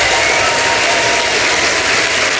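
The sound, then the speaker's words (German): Loud, sustained audience applause at a stage poetry event, bidding a performer farewell; dense, steady clapping without pauses from start to end. “verabschiedet trotzdem nochmal die Person, die wir nicht mehr sehen, mit einem tosenden Applaus von der Bühne.”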